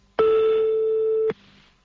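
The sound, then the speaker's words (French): A mobile phone rings while being called: one sustained, steady electronic tone lasting just over a second, clear and fairly loud, ending abruptly and leaving a faint background hiss. “refais sonner de nouveau le portable de Sandy”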